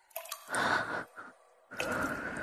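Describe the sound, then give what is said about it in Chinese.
Water drips from pipes inside a wall, heard as a few faint, wet, splashy bursts with quiet gaps between them. “一定什么都没有，刚才只是幻听，或者是滴水。啊，对，一定是墙壁里什么管道的滴水声，”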